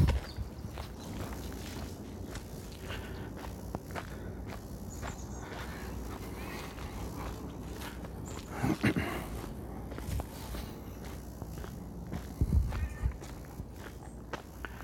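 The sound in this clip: Footsteps of someone walking outdoors at Laguna de Santa Rosa, a quiet, steady stride of many soft steps that continues throughout, with a couple of slightly louder footfalls.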